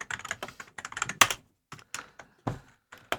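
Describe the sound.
Typing on a computer keyboard: quick bursts of crisp clicking keystrokes with short pauses between runs, a few louder key strikes standing out.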